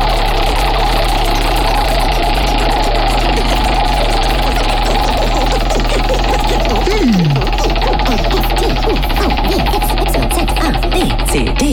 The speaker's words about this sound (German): Du darfst auch, wenn du willst, darfst du selber am Buchstabenrad drehen. Okay, pass auf. Dann starte ich jetzt das Rad.